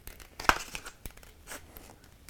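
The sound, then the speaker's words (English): Scissors cutting a small notch for the nose while a shape is trimmed, giving a few quiet, crisp snips with light papery crinkling between them and one sharper cut early on. “And now what I do is I cut a little notch for my nose.”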